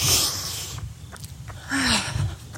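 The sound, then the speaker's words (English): A nice deep breath drawn in and then let out, heard as two breathy, noisy stretches with a quiet gap between them and wind noise around them. “we're going to take a nice deep breath.”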